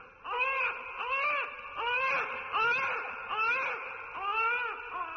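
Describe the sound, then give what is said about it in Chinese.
A baby cries in an old home recording of a son as an infant. The wails come in steady, repeated bursts, each one arching up and down in pitch and following closely on the last. “这是我儿子小时候的录音，这高兴的日子怎么能放这个呀？”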